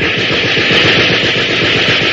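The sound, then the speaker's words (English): Automatic gunfire bursts from the street, a steady rapid rattle of pulses lasting the whole stretch over a constant hissing, crackling noise. “There is a burst of gunfire from the street below.”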